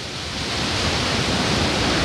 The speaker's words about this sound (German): Vor uns, ich sehe, wie die Wassermassen runter ins Tal schießen oder über die Felsenwände da runterfallen.